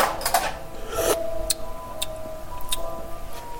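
Kitchen drawer opened while searching for a spoon, the wrong drawer, with cutlery rattling and clinking inside: a busy scrape and jangle at the start, then a few sharp metallic ticks spread over the rest.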